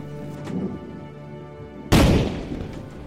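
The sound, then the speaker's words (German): A single cannon shot fired as a funeral salute for a ship's captain buried at sea: a sudden heavy boom with a rumbling decay, after a low steady hum. “Zehn Kanonenschüsse lässt Clark während der Bestattung zum letzten Salut für Kapitän James Cook abfeuern.”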